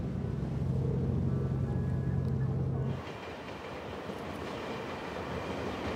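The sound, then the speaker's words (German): Train running north through the densely populated Kaohsiung area, a loud steady rumble with low hum for about three seconds, then a sudden drop to a quieter, rough rolling rattle of wheels on track. “Weiter unterwegs Richtung Norden, mit der Bahn. Wir fahren durch den dicht besiedelten Großraum von Kaohsiung.”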